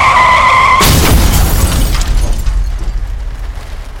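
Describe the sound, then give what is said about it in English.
Car skidding and crashing in an ugly wreck: a brief high tyre squeal gives way to a loud, sudden impact, followed by a long, rumbling wash of crunching and debris noise that slowly fades. “It was an ugly wreck.”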